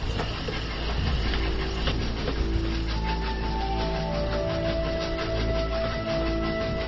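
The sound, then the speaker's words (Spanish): A coal-fired steam train pulls a circus at slow speed through the night in Indiana. Its loud, continuous rumble on the rails carries steady tonal whines and a faint rhythmic clatter, with no voices. “El tren con la lenta velocidad, para la época suficiente, rompía el silencio mientras dejaba su vaporoso humo blanco de carbón.”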